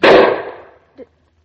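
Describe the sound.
A single gunshot is fired at a cottontail rabbit, a loud, sharp crack with a decaying tail, followed by a brief, faint thump.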